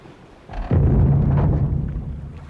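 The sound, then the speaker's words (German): A sailing ship runs onto a reef with a heavy crash: a loud low boom swells into a sustained, rumbling crunch with a deep droning tone beneath, fading slightly toward the end. “Rums, sagte das Schiff, denn es saß auf einem Riff.”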